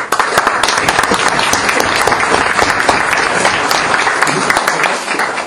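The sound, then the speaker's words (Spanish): Audience applause for an introduced guest at a university event on investigative journalism and social movements: dense, loud, steady clapping that holds evenly throughout. “Él está aquí con nosotros y le pedimos un aplauso para...”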